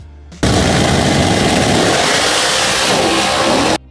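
Engine roar of a Dodge Dragpak drag car launching at night at a Norwalk national event against a blue Camaro, chattering off the line; one loud, sustained, raspy revving blast that holds steady before cutting off abruptly.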